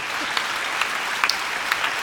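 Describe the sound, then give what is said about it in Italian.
Audience applause for a woman, a steady patter of clapping with a few sharper, louder claps popping out now and then. “un applauso alla signora”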